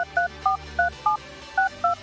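Touch-tone beeps as a telephone number is dialled: seven short, clear electronic tones, each a steady two-note chord, evenly spaced except for a longer pause before the last two.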